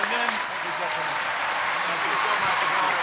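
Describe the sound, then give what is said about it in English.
A live audience applauds Sir Ben Kingsley. Steady, continuous clapping runs throughout while a voice talks over it. “Can I please have a huge hand for Sir Ben Kingsley?”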